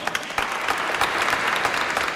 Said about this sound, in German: Ich habe einen Applaus für dich.